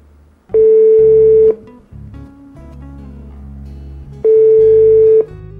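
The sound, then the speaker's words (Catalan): Telephone line tones as a caller's call comes through: two loud, buzzy beeps of about a second each, separated by a quieter low hum, with no talking. “La primera trucada d'avui”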